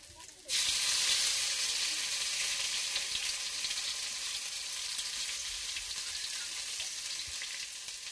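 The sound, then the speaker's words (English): Pumpkin leaves rolled in rice batter deep-fry with a loud, steady sizzle. It starts abruptly after half a second and continues unbroken to the end. “The pumpkin leaves are rolled in the rice batter, deep fried.”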